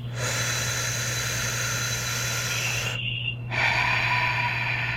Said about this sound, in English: big inhale. Let's go. Big exhale. Yeah. And all the way in one more time. We got two more.